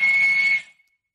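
A walrus on land in Svalbard gives a single steady, high, pure whistle. The tone holds evenly for about half a second, then quickly fades out.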